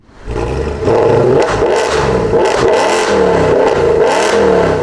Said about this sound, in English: extra loud motorcycles and modified car engines that sound something like this.